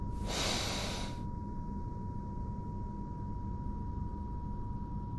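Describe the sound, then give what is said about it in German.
A single deep, breathy inhalation during a guided breathing exercise lasts about a second, then gives way to quiet, steady background noise with no talk. “Jetzt atme viermal tief ein”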